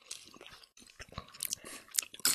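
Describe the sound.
Someone chews french fries with crunchy, irregular bites and soft mouth noises, faint and uneven, with no talking.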